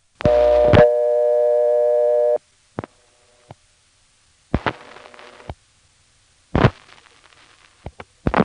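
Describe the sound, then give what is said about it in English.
Telephone tones from a vacant 289 number routed over a Type 1 carrier: a loud tone burst, then a steady tone lasting about two seconds, followed by clicks and short bursts of static-like line noise between silences. “Now, pardon the redundancy here, but here also is a 289 vacant number. Goes to the same recording, but I wanted to include it because it's on that Type 1 mystery carrier.”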